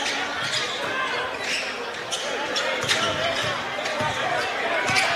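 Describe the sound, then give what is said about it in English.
A basketball is dribbled beyond the three-point arc during a game. Many quick, regular bounces sound under a steady crowd din. “dribbling out beyond the arc.”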